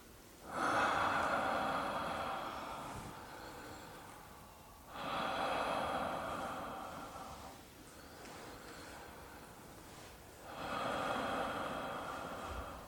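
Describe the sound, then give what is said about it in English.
Open-mouthed breathing with no voicing: faint, airy breaths that swell slowly and then fade, repeated several times at a slow, even pace. “Start with just the open breath, no sound at all.”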